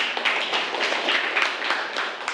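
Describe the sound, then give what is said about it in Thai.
Students clapping for a classmate in class, a dense, even patter of many hands that carries on steadily from start to end. “โอเคนะครับปรบมือให้เพื่อนเลยนะครับ”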